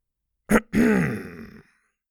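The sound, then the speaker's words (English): A giant man clears his throat: a short, sharp burst followed by a longer, rough, low, gravelly rasp that fades out, heard alone. “The giant man next to her cleared his throat.”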